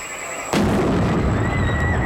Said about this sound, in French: Une minute après, l'explosion retentit.